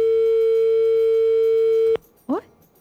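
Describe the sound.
Telephone line tone as a caller connects: a steady, loud, single-pitch tone holds for about two seconds, cuts off abruptly, and is followed by a brief voice sound.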